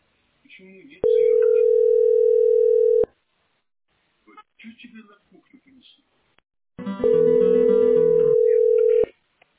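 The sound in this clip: A repeated incoming call sounds on a telephone as a steady, long, mid-pitched tone, heard twice with a pause between. A voice talks briefly before and between the tones.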